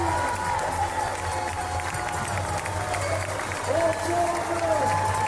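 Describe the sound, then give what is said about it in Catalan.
A crowd in Chamonix cheers and applauds the last finisher of the CCC trail race, a steady roar of clapping and shouts beneath a voice talking over it. “Ovació de gala, però no per un primer, ni per un segon, ni per un tercer classificat. Ni més ni menys que el darrer, l'últim classificat de la CCC”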